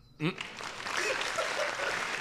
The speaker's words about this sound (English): Round of applause.